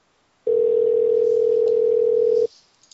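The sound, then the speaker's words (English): Telephone dial tone as a caller is brought in, a single steady pitch held loud for about two seconds before cutting off abruptly to near silence. “So we're going to bring in a caller here.”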